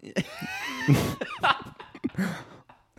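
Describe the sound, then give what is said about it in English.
Raspy, wheezing smoker's coughs come in a few breathy bursts, the rough hacks mixed with strained exhalations and scattered between moments of throat noise. “Excuse my smoker wheeze right there.”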